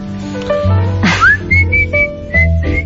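A person whistling a few short, clear, high notes, one of them sliding upward, in a loose, playful pattern.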